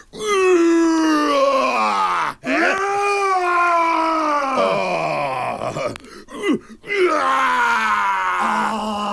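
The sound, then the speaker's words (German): A person's voice imitates a roar: a few long, loud, throaty vocal roars with strained tone and sweeping pitch, separated by brief breaks. “Das ist ein schönes Brüllen.”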